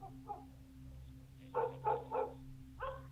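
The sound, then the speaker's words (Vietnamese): A house dog barks at a heavy ironwood gate: a quick run of three fairly faint barks, then another short burst, over a steady low hum. “Con chó nhà nuôi chẳng hiểu làm sao nó cứ chõ ra chỗ cánh cổng gỗ lim mà cắn nhấm nha”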